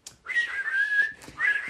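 A person whistles a harmony part to a song, with clear wavering mid-high notes in two phrases: a longer sliding line, a brief pause, then a shorter phrase.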